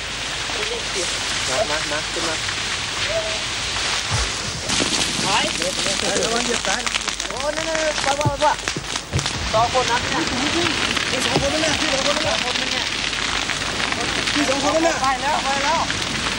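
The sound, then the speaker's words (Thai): A large fire burns at night with a dense, steady roar and crackle that fills the whole clip, while voices talk over it. “มีปัจจัยหลายประการที่ทำให้ไฟในคืนนี้ค่อนข้างจะรุนแรง”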